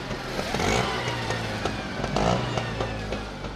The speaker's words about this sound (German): Dorthin wollen wir jetzt mit unserer Rikscha fahren.